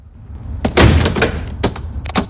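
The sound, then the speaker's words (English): A metal handle on a locked door in a dark corridor by the kitchens is tried, giving several sharp clicks and knocks with short rattles, but the door stays shut. “She tries the metal handle of a locked door.”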